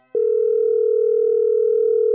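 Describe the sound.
A telephone dial tone plays while someone phones a friend. It is a steady, single-pitched continuous hum, loud and unchanging for about two seconds before it stops abruptly.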